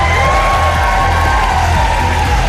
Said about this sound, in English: Volodymyr Zelensky was also cheered by staff from the Foreign Office as he arrived for talks.